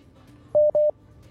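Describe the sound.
Two telephone dialing tones as a call is placed to a radio show, short steady beeps of the same pitch sounding back to back, alone over a faint background.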